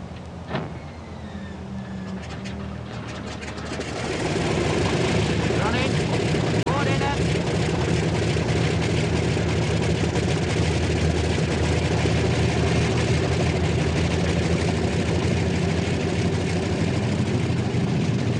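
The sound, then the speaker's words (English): Wartime aircraft outer engines start and run on the tarmac before takeoff: a low, rough roar that swells sharply after a few seconds into a loud, steady drone, with speech audible over it. “Starboard outer engine. Switches on, contact. Port outer.”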